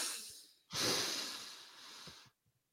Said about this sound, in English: We're going to take a deep breath in, and then we're going to blow out all the bad and fill up with some goodness, hopefully.